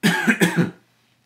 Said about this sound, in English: I can't stand being on camera and coughing.